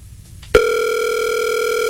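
A telephone dial tone starts abruptly while someone places a call, then holds as a loud, steady, unbroken tone with no voices over it.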